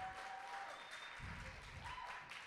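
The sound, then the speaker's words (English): Faint applause from an audience welcoming first-time visitors, a soft, brief patter of clapping lasting a couple of seconds. “Yes, okay, can we give them all a big welcome?”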